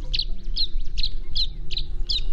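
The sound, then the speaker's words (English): Tree swallow calls over a marsh: six bright, chirping notes repeat at a steady rhythm above a low, continuous rumble. “As a tree swallow swoops gracefully across a marsh, its long, slender wings glint a deep, iridescent blue.”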